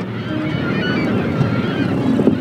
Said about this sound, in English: We boat over to our last island and clamber up on the rocky outcropping.